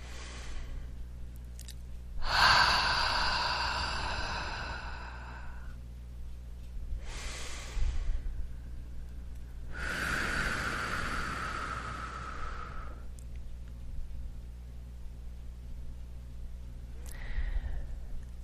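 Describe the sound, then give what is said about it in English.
Deep breaths drawn in through the nose and let out through the mouth: a few slow, airy, hissing breaths, each lasting one to three seconds with pauses between them, heard alone without talk. “So nice deep breath in through the nose and out through the mouth, please.”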